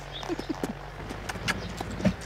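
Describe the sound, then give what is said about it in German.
A horse walks slowly on a lunge line, its hooves making a few soft, unhurried clip-clops over a low steady background. “Ich führe Admiral an der Longe. Ganz langsam.”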